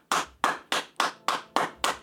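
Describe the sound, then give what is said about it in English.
Seven sharp, loud cupped-hand double claps in a steady, evenly spaced rhythm, each a bright crack with a quick decay, with no voices. “you also create a cup on the other hand, right. So you're doing a double clap”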